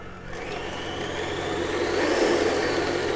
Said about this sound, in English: So, I prefer using a mixer just to save myself some arm strength. So, let me let that go.